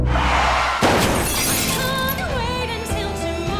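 A car crash sound effect: steady driving noise breaks into a loud crunching impact, followed by shattering glass and scattered tinkling debris that keeps ringing out to the end.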